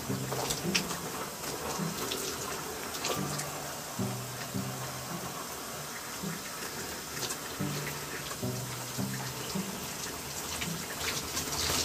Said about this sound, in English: So I'm just gonna drench the shower cap. I'm making sure my hair gets really soaking wet.